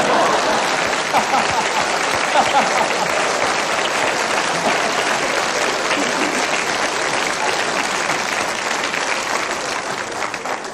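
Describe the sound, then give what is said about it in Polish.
Audience applause for a performer's appearance: dense, steady clapping that stays loud and even throughout, with no break. “Stary chłop, a po raz pierwszy w życiu dostałem brawa za wygląd.”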